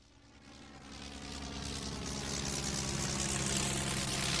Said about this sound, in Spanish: Greta Stahelberg, adjunta al Departamento de Sanidad del Tercer Reich, aterrizó en el aeródromo de Ingolstadt a bordo de un bimotor Junkers de la Luftwaffe.